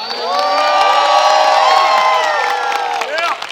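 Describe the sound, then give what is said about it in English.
An audience at a religious seminar cheers and whoops to welcome a national audience, a loud burst of shouting voices that builds quickly, holds briefly, then starts to fade. “Whether you're joining us now, let's welcome our national audience.”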